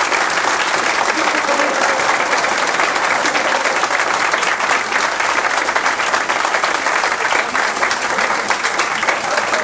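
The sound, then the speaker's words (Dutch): Crowd applause, loud and dense, with steady clapping that holds at an even level from start to finish without a clear break. “af en toe hebben we wel eens dat de mensen gewoon applaus tussendoor krijgen.”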